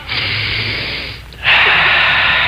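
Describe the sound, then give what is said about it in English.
A deep breath of fresh western air drawn in by a man: a long, steady hissing inhale, a brief pause, then a second, louder rush of breath running to the end, with no talking. “Just let me take a deep breath of this air.”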